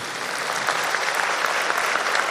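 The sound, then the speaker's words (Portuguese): Audience applause on a Brazilian Catholic TV program for a boy celebrating his tenth birthday: dense, steady clapping that fills the whole moment at an even loudness, with no clear talk over it. “Vamos aplaudir o Rafael.”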